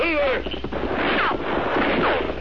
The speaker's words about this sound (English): And bullets come plenty close. He's following us.